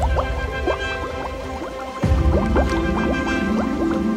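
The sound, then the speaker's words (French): Ducks diving into water, heard as a quick, continuous run of many short bubbly plops with rising pitch, a watery gurgling texture that grows a little louder halfway through. “Alors, toute la famille du canard s'enfonça dans l'eau.”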